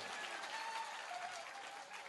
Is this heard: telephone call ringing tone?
no